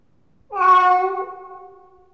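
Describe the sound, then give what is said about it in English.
A single cat meow rises sharply and holds as a clear, mid-pitched, drawn-out cry, then tapers off gradually over a little more than a second, heard alone without any talk. “It's a cat.”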